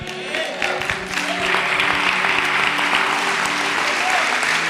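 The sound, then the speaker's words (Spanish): A church audience applauds loudly and steadily, a dense wash of clapping that builds in the first second and then holds at full strength, with voices faintly present underneath. “Dele un aplauso más fuerte a Él.”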